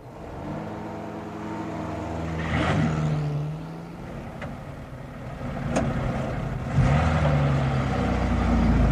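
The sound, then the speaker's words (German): A car drives along while following a taxi. Its engine gives a steady low hum with gentle swells in loudness and a brief surge near the end, and no voices are heard. “Ich fahre der Taxe nach.”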